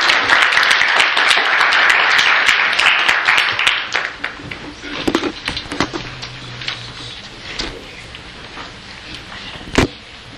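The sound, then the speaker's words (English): An audience applauds to welcome a speaker in church: loud, dense clapping for the first few seconds, then thinning into scattered individual claps that fade out, with one sharp late clap standing out. “Put your hand together and welcome.”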